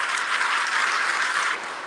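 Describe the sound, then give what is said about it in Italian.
Audience applause at a public gathering: dense, steady clapping fills the whole clip, easing slightly in level near the end. “a cui facciamo un applauso tutti insieme”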